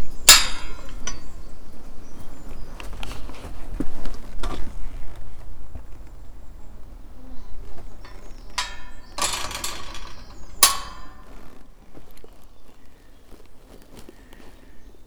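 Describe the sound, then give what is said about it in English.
A train chugs along the Paignton to Kingswear Railway line with irregular clanks, knocks and hissing bursts that start loud and grow fainter toward the end. “This is the sound of the train chugging its way along the Paignton to Kingswear Railway, just below Heron's Rest.”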